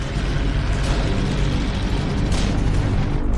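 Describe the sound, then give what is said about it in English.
Artillery shells explode outside a building under attack as a loud, continuous low rumble and roar. A couple of brighter bursts rise out of the dense wall of noise. “Enemy shells drop outside. And the machine guns burst against the walls and windows.”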